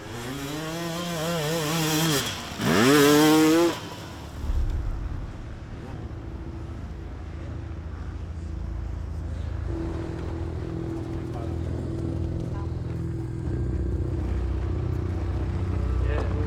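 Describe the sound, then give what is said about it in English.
A motorcycle engine fires up at the refuelling point during a race: a loud, rough burst of revving with wavering pitch, then a steady low droning rumble that continues to the end. “as soon as I press the button, my bike start like starting, but then stalling again.”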